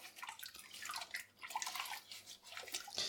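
Water sloshing and splashing as a ladle is put in to soak, a faint, continuous washing sound with small irregular surges and no voices.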